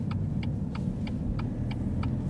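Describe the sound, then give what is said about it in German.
A car drives into a residential street, its steady low rumble running throughout, with seven evenly spaced light ticks over it. “Wir fahren in eine Anliegerstraße.”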